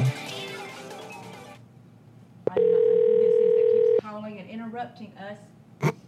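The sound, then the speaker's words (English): A custom redneck-style phone ringback tone: one loud, steady, buzzy tone lasting about a second and a half, with people talking before and after it. “Found another one with a redneck ringtone. Nice. A redneck ringtone. Yeah, that's really loud.”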